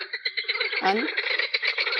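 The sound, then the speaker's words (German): Frogs croak in a busy, rapid stream of pulsing, rattling calls that overlap continuously at moderate loudness, with no talking. “Also die Frösche, die hatte ich bis jetzt gestern gar nicht so. Die sind heute sehr aktiv.”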